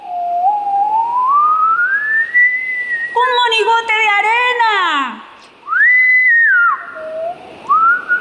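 Bright, playful whistling stands in for the wind swirling leaves into a whirlwind. A long steadily rising tone gives way to a warbling, falling phrase, then a shorter rise-and-fall and a final upward glide.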